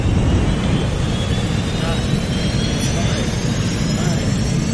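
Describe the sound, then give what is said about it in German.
A rocket launch sound effect, a loud, steady, continuous roar that holds at full strength throughout. “Und auch heute starten wir wieder mit unserer Rakete. Alle zusammen. Fünf.”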